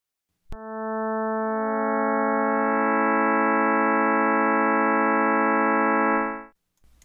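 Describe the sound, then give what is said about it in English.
A just-intonation major triad on A, tuned in pure 4:5:6 ratios, sounds as one smooth, sustained electronic chord. It starts with a sharp click, holds steady and loud for about six seconds, then cuts off cleanly. “So let's listen to the just major triad, starting on an A at 220 Hz.”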